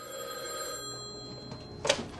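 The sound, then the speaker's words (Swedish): A telephone rings once in a film scene: one short, bright burst near the end over a steady, quiet background hum. “Här ringer han ju också dem.”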